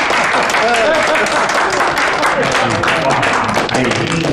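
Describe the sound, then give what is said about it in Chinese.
Dense, steady applause greets the bride and groom as they arrive at a wedding. Continuous clapping fills the whole stretch, with voices talking and calling out over it. “新郎新娘到。来来来来， 我是得鼓鼓掌。哎呀， 欢迎欢迎！”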